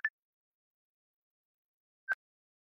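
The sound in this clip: An incoming phone call alert: two short, clean beeps at the same pitch, about two seconds apart, faint against otherwise silent surroundings.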